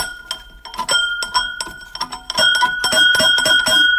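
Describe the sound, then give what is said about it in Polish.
An old metal school bell from a nearby school rings in many quick, bright strikes, its clanging tones overlapping into a sustained, shimmering jangle that grows louder toward the end. “Dzwonek szkolny z jednej z pobliskich szkół.”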